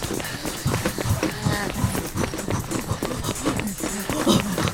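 A camera crew runs off on foot. Hurried footsteps make a rapid, uneven patter of many steps that stays busy throughout.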